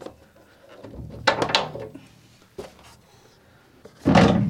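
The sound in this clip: A door on a green-and-red metal farm shop standing on stilts is shut, with a few dull clunks and rattles and then a louder, sustained bang at the end.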